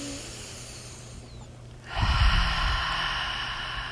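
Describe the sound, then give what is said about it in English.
Deep breathing in a guided prayer and meditation exercise: a quiet start, then a loud, rushing breath that swells about halfway through and stays strong to the end, with no talk. “So I'd like for us to move into those deep breaths again. Once more.”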